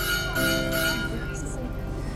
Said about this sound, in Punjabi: ਇੱਕ second, bell ਪਤਾ ਨਹੀਂ ਕਾਹਦੀ ਵੱਜੀ ਹੈ। Hold on, okay okay, no problem. School ਦੇ ਬੈੱਲਾਂ ਦੀ ਪ੍ਰੋਬਲਮ ਹੁੰਦੀ ਹੈ।